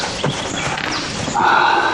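Clip-clop of a horse's hooves as a police officer rides into the mountains, several uneven hoof strikes over a steady background rumble that grows louder toward the end.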